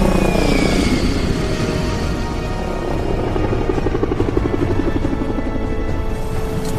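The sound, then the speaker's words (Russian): A helicopter flies over a network of huge waterfalls with a loud, steady rotor drone and a rapid, rhythmic thudding pulse that carries through the whole stretch. “Вертолет пролетает над сетью огромных водопадов.”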